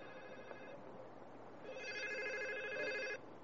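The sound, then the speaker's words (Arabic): A mobile phone rings during a religious lecture: two faint bursts of melodic electronic tones, short then longer, over a low steady hiss. “هذا جوالي”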